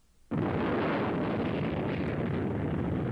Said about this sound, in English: 3, 2, ready on the missile. 1, blast off.